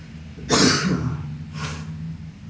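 Throat clearing in two raspy bursts, the first louder and longer, the second shorter and softer, with no speech around them.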